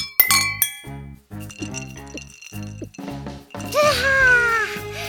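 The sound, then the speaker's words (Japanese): Drinking glasses clinking together in a toast at a celebration after an album recording, a couple of bright, sharp clinks near the start followed by a sustained tonal background. “みんな、グラスは持った？それじゃあ、アルバム収録お疲れ様。乾杯！ 乾杯！”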